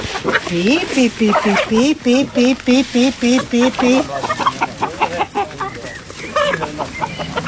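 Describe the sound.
Free-range hens cluck in a quick, steady run of bright, repeated calls, then break into looser, more scattered clucking as the flock keeps calling.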